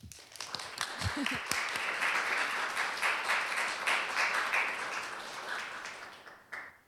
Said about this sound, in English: So please welcome Suzannah Omonuk.